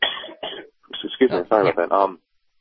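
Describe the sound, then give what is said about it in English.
Coughing: a series of rough, voiced bursts in quick succession, some short and some drawn out, loud against otherwise quiet surroundings. “By the way, Obamacare covers that, whatever kind of cough that is.”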